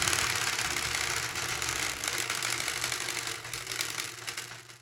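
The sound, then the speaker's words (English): A homemade prize wheel spins with a hose head strapped on as its pointer, giving a rapid, dense run of ticking and whirring that holds steady and eases slightly toward the end. “I'm going to go ahead and give it a spin.”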